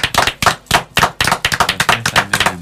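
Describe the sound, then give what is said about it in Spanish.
Applause from a small crowd, a burst of loud, irregular hand claps that settles into a steadier, quicker rhythm, heard alone with no talk. “Por eso este aplauso es para el mantel de Olivia, que nos ha visitado en esta fresquísima mañana de Mendoza.”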